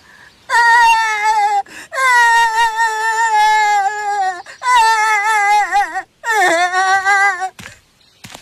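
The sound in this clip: A child crying and wailing while being dragged away, in four long loud sustained wails with wavering pitch that sags at the ends, each separated by short catches of breath.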